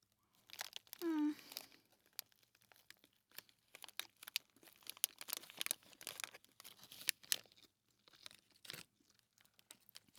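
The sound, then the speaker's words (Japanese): Crinkling and crunching from someone eating a chicken gomoku rice ball, most likely the wrapper and bites: many short, uneven crackles and rustles spread across the whole stretch, moderately loud, with no clear talk. “食べてるのも鶏ごもくです。”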